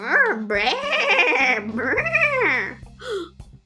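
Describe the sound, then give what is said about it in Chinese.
A human voice imitates sheep bleating with high, quavering, wavering baa sounds. Two long loud calls with rising and falling pitch are followed by a shorter, breathier one. “那是绵羊”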